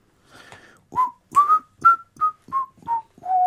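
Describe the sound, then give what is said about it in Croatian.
A person whistles monotonously like a tired, uninterested worker: after a faint start come seven clear, evenly spaced notes near one pitch, sinking slightly toward the end, with no voices. “Da, zviždanje je dobro, samo ne tako veselo”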